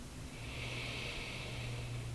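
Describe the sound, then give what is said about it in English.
A single deep breath is drawn in through the nose during a guided relaxation exercise: a soft, steady, airy hiss lasting about two seconds, quiet and with no voices. “So I'm inviting everybody to close your eyes and take a deep breath in”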